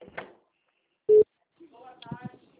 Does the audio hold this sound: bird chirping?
no

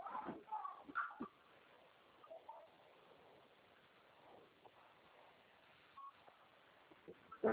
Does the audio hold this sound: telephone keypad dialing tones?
yes

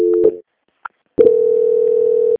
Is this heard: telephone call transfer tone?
yes

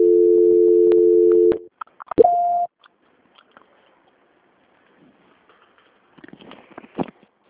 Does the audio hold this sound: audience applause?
no

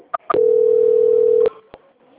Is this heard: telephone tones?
yes

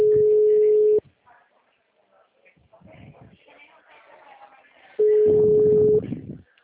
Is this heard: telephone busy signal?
yes

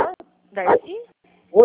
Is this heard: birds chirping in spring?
no

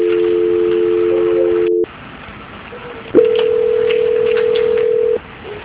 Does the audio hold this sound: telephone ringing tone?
yes

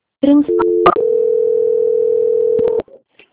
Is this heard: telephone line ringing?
yes

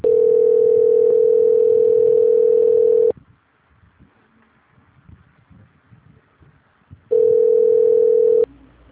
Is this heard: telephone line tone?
yes

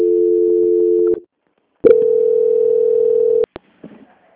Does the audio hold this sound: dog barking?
no

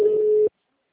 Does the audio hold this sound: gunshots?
no

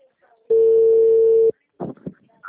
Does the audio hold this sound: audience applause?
no

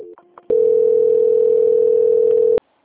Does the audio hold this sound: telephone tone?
yes

